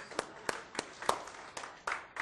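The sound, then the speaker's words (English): Audience giving a small round of applause after a stage exercise, a handful of faint, sparse hand claps spaced apart rather than a full ovation. “A little round of applause for Mike.”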